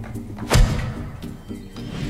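A forceful overhead strike being demonstrated lands as one loud, sharp thud, followed by a brief low rumble over a steady tonal background.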